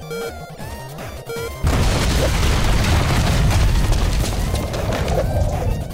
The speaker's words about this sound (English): Now it's time to explode!